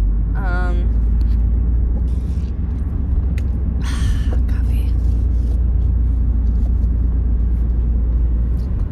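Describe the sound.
Loud, steady road rumble from a car driving home late at night on curving roads, a deep continuous drone that holds throughout.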